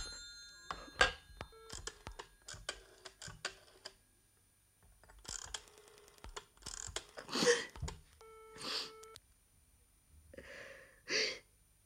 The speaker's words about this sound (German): Sie können die Nummer direkt wählen.